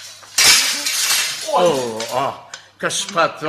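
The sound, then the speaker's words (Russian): A round glass bottle slips from someone's hands and breaks, a sudden bright crash with a shattering scatter. People's voices follow in quick exchanges. “Я только взял посмотреть эту круглую бутылку. А она выскользнула из рук.”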